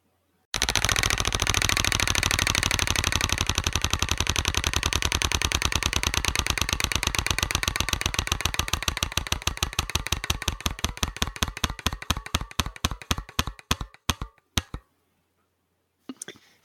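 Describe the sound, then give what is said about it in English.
A prize wheel spins during a card game. Its pointer ticks in a dense, rapid rattle, then the clicks spread out and slow until the wheel stops after about fourteen seconds, with one faint click later. “I'm going to spin the wheel again. Here it goes.”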